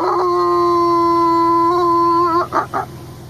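A maned wolf howls in a long, steady, tonal call lasting over two seconds, then breaks off into a few short, rough bursts.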